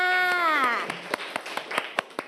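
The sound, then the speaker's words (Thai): A class of students clapping for a classmate's correct answer: a few sparse, quiet hand claps follow a brief spoken voice. “คำตอบถูกต้องค่ะปรบมือให้เพื่อนค่ะ”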